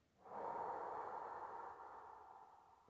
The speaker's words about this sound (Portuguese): Inspira e expira.